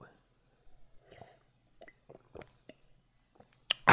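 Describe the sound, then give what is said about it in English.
Sipping and swallowing water: a few faint, soft, wet mouth and throat sounds spread out over quiet, closing with a louder breathy burst. “you hear that right there? That's the sound of your body intaking some great holy liquids”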